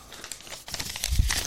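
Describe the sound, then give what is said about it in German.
A paper note is crumpled by hand, a brief burst of dry crinkling and crackling that grows louder toward the end. “Na, eigentlich habe ich nicht umgeblättert. Ich habe jetzt meinen schönen Notizzettel hier zerknüllt.”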